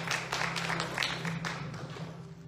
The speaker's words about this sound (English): Would you please put your hands together and welcome Chaplain John B. Smith as he comes and preaches the word.